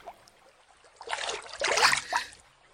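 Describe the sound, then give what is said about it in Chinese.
Water splashing in a royal bathhouse pool: a few surging bursts of sloshing and spattering rise out of a quiet background and swell to a peak before easing off, with no voices. “怎么还泼起水来了？毕竟是皇家浴场，是不是该庄重一些啊？”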